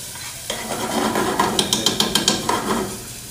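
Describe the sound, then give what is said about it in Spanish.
Onion sautéing in a pan: a steady sizzle starts after a brief quiet opening, and a quick run of sharp scraping and clinking stirring strokes against the pan comes in the middle. “Vamos a sofreír esto rápidamente para que se ponga translucente.”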